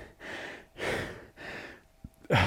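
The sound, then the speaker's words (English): Heavy breathing during a hard workout at a high heart rate, three long, loud, rasping breaths in a slow rhythm, then a brief click before a voice begins. “by the heavy breathing that it's a hard workout”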